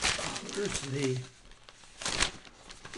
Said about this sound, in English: where's the Good Morning newspaper? I cut this out so I could show it to you.